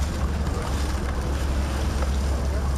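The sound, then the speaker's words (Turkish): Steady rumble of Turkish navy warships, fifteen vessels in a Victory Day anniversary procession, passing through Istanbul's Bosphorus, with constant engine drone, washing water and wind buffeting. “İstanbul Boğazı'nda bu kez savaş gemilerinin geçişi vardı. 30 Ağustos Zafer Bayramı'nın yıl dönümü için Türk Deniz Kuvvetleri'nin 15 gemisi Boğaz'ı geçti.”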